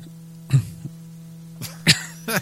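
Dry coughing from a tickle in the throat, a few short, sharp bursts with brief pauses between them over a steady low hum.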